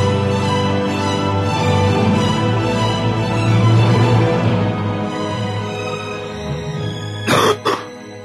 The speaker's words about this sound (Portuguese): O cara tossiu no final da vinheta, mano. Pelo menos foi no final, velho. Não foi no meio da vinheta.